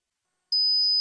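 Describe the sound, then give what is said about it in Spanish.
High-pitched steady ringing beep imitating tinnitus, starting abruptly after half a second of silence and holding clear and alone until the end. “Es molesto, ¿verdad? ¿Te imaginas oírlo cada noche? Sonofin te puede ayudar porque Sonofin con ginkgo biloba y melatonina reduce los pitidos y te ayuda a dormir.”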